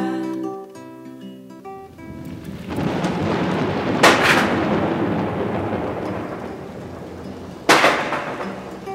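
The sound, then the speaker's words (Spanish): Thunder in a rainstorm, rolling and rumbling steadily under falling rain after a short musical passage, broken by two loud, sharp cracks a few seconds apart. “Son truenos que el cielo nos mandó. Vienen a avisarnos que pronto va a llover.”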